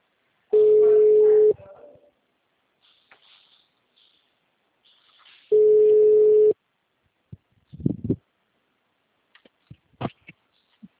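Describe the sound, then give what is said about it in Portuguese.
A telephone ringback tone sounds while a call is placed: two steady, even tones lasting about a second each, separated by a long silence. A few brief bursts of speech follow near the end. “Tá chamando.”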